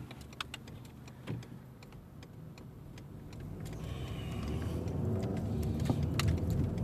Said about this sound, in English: In case you guys aren't paying attention or understanding, right now I'm out driving.